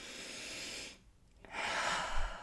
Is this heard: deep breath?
yes

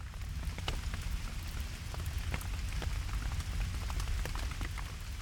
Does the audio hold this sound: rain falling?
yes

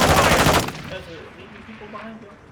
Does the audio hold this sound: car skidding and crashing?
no

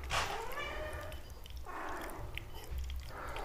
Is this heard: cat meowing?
yes

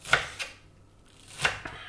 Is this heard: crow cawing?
no

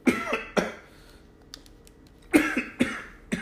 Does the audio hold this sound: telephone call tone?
no

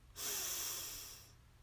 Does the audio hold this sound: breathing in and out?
yes

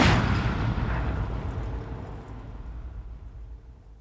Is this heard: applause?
no

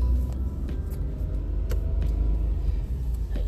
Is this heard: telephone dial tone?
no

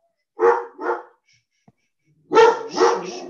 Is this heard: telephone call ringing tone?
no

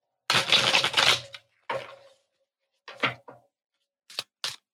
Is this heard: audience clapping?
no

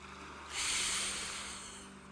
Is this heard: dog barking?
no

